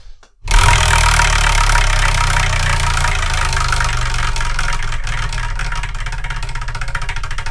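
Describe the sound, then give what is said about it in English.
A prize wheel, the Wheel of Manga, is spun by hand, starting abruptly into a loud whirring rattle whose rapid ticks grow more distinct toward the end. “But let's see what we're going to review in the next episode while I spin this Wheel of Manga.”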